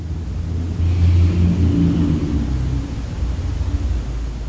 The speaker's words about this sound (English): not hold on to the sound of traffic as being outside, and not hold on to it as being inside either.